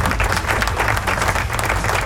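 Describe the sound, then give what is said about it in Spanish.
Applause from a crowd, dense and steady clapping that stays loud and even throughout the brief stretch. “Así que aplauso.”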